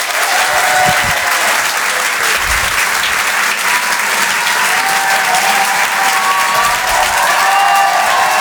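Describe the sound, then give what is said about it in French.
A comedy club audience applauds with some cheering, a dense and steady wash of clapping that stays loud for the whole stretch without pause. “Je vous demande un maximum de bruit, s'il vous plaît, pour Yann Guillaume.”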